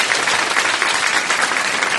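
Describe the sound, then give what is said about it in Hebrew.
Applause from an audience, a dense, even wash of many hands clapping at once, loud and sustained throughout with no pauses. “תנו מחיאות כפיים, אני גונב 10 שניות, למנדי אור.”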